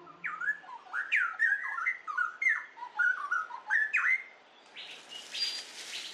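A straw-headed bulbul pair sings a loud duet of rich, rapid whistled and warbling phrases that pour out almost without a break. A higher, noisier, hissing stretch of calls follows near the end.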